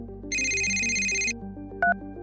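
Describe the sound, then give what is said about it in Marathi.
A phone ringtone chirps for about a second, a bright electronic trill over a low background melody, followed shortly by a brief higher beep. “त्यावेळी त्यांचा phone वाजला”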